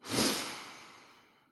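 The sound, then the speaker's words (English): A single deep breath is drawn in, a soft, airy rush that swells quickly and then tapers off gradually, quiet and alone without speech. “Take a deep breath in.”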